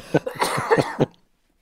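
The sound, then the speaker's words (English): A person coughs in a short fit of several rapid, raspy bursts of uneven loudness, then goes silent. “I have to apologize about my cough tonight.”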